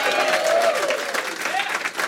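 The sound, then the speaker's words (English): A comedy club audience in a Denver bar applauds and cheers the host, with a dense burst of clapping that holds strong before easing slightly and rippling on. “Give it up for your amazing host, Jeff Steinbrenner,”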